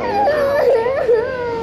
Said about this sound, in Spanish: se escucha a niños llorando desesperadamente y rogándole a sus padres después de ser separados de ellos